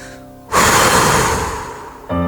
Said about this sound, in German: Lass die Anspannung los durch einen heftigen Ausatmen.